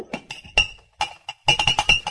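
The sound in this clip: Whiskey glasses clinking at a bar, many bright glassy chinks and taps with ringing tones, coming quickly and irregularly, heavier in a cluster toward the end.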